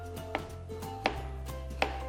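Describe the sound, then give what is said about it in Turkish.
Three sharp, evenly spaced knife chops through a banana, each a crisp thud over a low, steady background hum. “Hemen muzumuzu da doğrayacağız.”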